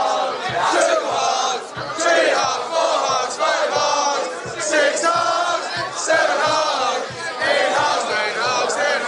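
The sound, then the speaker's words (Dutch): Manchester United supporters chant in unison, a counting chant toward ten, with loud massed voices repeating short sung phrases over a steady crowd roar. “Je hoort de Manchester supporters zingen one hack, two hack. Ah, en dan tellen ze naar ten.”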